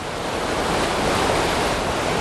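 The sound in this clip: The rushing roar of a waterfall in Scotland: a dense, steady wash of falling water, loud and unbroken, with no other sounds over it.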